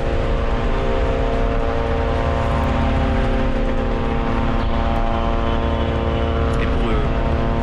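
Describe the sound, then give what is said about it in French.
Israeli drones buzzing almost continuously overhead in Lebanon, heard as a steady, unbroken, harmonic droning hum that stays fairly loud and even throughout. “Écoutez ce bruit, ce n'est pas votre radio qui bourdonne, n'essayez pas de régler quoi que ce soit, c'est le bruit des drones israéliens. On les entend quasiment en continuité au-dessus de nos têtes,”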